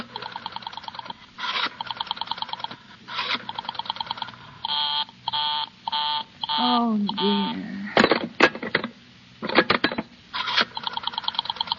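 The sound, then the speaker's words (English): Telephone dialing on a call to an exchange where the line stays busy: repeated buzzing tone bursts with short gaps, several sharp clicks, and a brief descending tone in the middle, all moderately loud with no voices. “Operator, I've been dialing Murray Hill”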